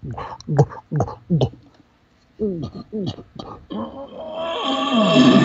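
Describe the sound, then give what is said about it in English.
A person's voice imitates a bull's guttural noises: a run of short grunting bursts, a brief pause, then more grunts that build into a longer, louder, drawn-out groan. “And now I just start making a bunch of little guttural noises,”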